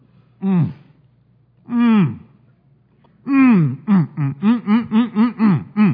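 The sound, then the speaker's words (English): A man's voice imitates the throat noise someone makes while stuffing his face with food at a family dinner table. There are three drawn-out guttural groans, each falling in pitch, then a quick run of about eight short grunting bursts. “He's just doing that sound in the back of his throat as he's eating this food and he's stuffing his face.”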